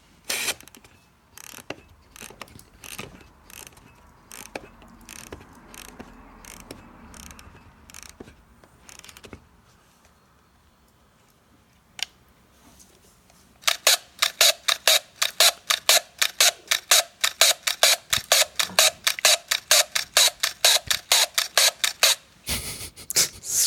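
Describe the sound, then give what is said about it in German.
A Robot 2 film camera is wound and fired with no film loaded. Sharp mechanical clicks come at first, scattered and separated by gaps, then a quiet pause. A fast, dense run of loud ratcheting clicks follows and continues to the end. “Wir hören hier das Aufziehen und Abfeuern einer Robot-2-Kamera, leider ohne Film”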